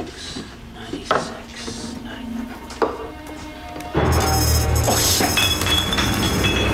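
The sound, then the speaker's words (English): Glass bottles clink as someone searches a wine cellar for a bottle. A few sharp clinks stand out over quiet shuffling, then a louder continuous sound takes over. “He's looking for the same bottle as the one he's just had.”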